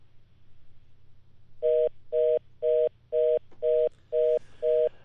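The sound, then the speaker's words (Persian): After a dropped telephone call, a low steady hum gives way to seven evenly spaced, mid-pitched electronic beeps on the line, each short and equally loud. “متاسفانه که تماس ما با آقای ضیاءالرحمن حسرت گزارشگر رادیو آشنا قطع شد”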